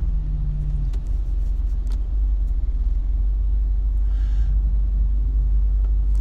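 A car drives along the road, heard from inside as a steady, loud low rumble of engine and tyres with no talk over it.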